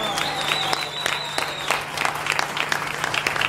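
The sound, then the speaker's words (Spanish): An audience applauds a dancer with a dense, even wash of many hands clapping that holds at a steady level throughout, with no voices rising above it. “El aplauso para ese bailarín.”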